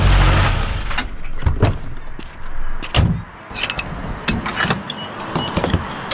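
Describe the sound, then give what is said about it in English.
Mechanical clicks and clunks of fuel being pumped into a car's gas tank at a pump in Iowa: a series of sharp, irregular transients over a steady low rumble, fairly loud throughout. “Hear that? It's your paycheck going straight into the tank. Record gas prices in Iowa.”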